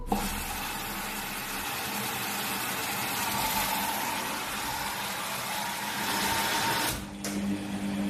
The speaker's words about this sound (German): Vom Einweichen über den Hauptwaschgang bis hin zu mehreren Spülgängen und dem finalen Schleudern. Keine Frage. Der Waschvollautomat war eine technische Meisterleistung.